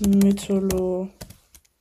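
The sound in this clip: Typing on a computer keyboard: sharp key clicks under a person talking, then a couple of isolated taps after the voice stops.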